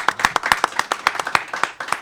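A small audience applauds to welcome an author at a bookstore event at Pilsen Community Books, with many quick, uneven hand claps.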